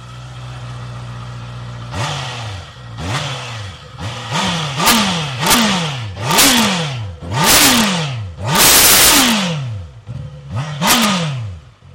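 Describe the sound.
A Honda CB650R motorcycle engine idles steadily, then is revved in many quick throttle blips, each rising sharply in pitch and falling back toward idle, loud and without talk.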